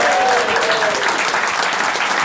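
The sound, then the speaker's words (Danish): Studio audience applause welcoming a guest, an animal dealer, onto a Danish talk show: loud, dense clapping from many people that stays full and even throughout. “Giv en kæmpe stor hånd til en dyrehandler. Giv en kæmpe stor hånd.”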